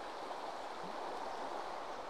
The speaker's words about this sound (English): Well, the Beck that we've been following pretty much all the way from Thornthwaite has done its job. It's led us to the mighty River Nid.